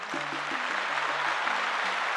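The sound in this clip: Studio audience applause greets a show host as dense, even clapping that stays steady and loud from start to finish, with faint low tones running beneath it.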